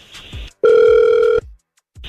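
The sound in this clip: A telephone tone on a radio station call: one steady, loud electronic ring of under a second, with brief faint sounds before and after it.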